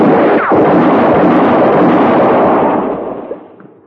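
A single loud gunshot cracks out during an armed confrontation over land near a well, followed by a long, rumbling tail that holds and then fades away over several seconds, heard alone without talk.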